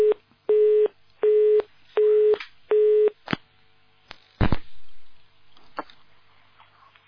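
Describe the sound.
Telephone busy tone after a dropped call: four steady, evenly spaced beeps, followed by scattered clicks and faint line noise.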